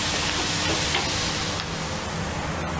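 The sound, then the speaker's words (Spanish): Fried tomato tipped into a paella pan with paprika and sizzling hard in the hot oil, a dense, loud, continuous crackle that holds steady throughout. “Para que no se nos queme, le vamos a poner el tomate, que ya lo tenemos frito.”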